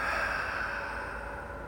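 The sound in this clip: Deep, drawn-out exhale during a guided breathing meditation: a single steady, breathy rush of air that stays even and fairly soft for its whole length.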